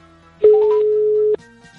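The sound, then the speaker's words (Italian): A telephone ringback tone sounds as a call is placed: one loud, steady, unbroken tone lasting about a second, heard alone with no voices. “sto già chiamando la signora”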